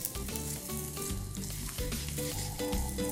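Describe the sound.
A thick flour-based mixture sizzles in a hot pan and is stirred without pause as it comes together into a mass, with the heat turned off. It gives a steady, even crackling hiss throughout.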